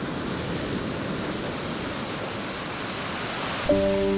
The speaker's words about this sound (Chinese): 东海潮水每日如约而至，涌入宁波象山花澳岛的盐田。